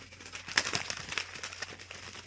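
A paper envelope crinkles as it is pulled from a pocket, giving a soft, continuous rustle with small crackling bursts, faint throughout.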